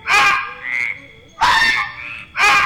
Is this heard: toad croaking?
yes